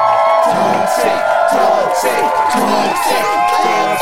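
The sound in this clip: Audience cheering and whooping at a motivational talk: a dense, continuous roar of crowd voices with scattered shouts that holds steady for the whole four seconds.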